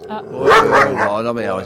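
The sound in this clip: A dog's barks and yips come in a few short bursts, tangled with people talking over them.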